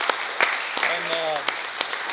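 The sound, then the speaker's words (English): A round of applause for a Board of Education member at an evening event supporting young people: a steady wash of clapping with a few sharper claps standing out and a voice over it. “And let's give her a round of applause.”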